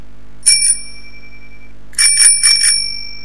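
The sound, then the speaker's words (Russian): A school bell rings at a girls' gymnasium, giving a short bright double ring, a pause, then a longer burst of quick metallic rings over a low steady hum, with no voices. “Внезапный звонок заставил ее умолкнуть. Дети разом оправились и подтянулись, услышав этот звонок.”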